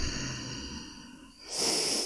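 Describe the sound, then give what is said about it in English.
One deep breath during a guided breathing exercise, a long steady rush of airflow that becomes louder and brighter toward the end. “We'll do two powerful drone breaths in and out on the count of three. One, two, three. Deep breath in.”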